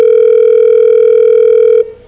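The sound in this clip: A telephone dial tone sounds while a call is placed: one loud, steady continuous tone holds for about two seconds, then cuts off abruptly.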